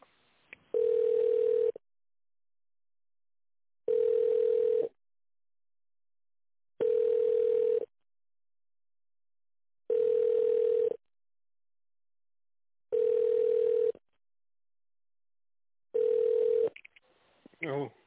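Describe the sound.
A telephone ringback tone plays on the line while a call is transferred: six steady, even-pitched tones about a second long, each followed by roughly two seconds of silence, ending with a brief burst of line noise.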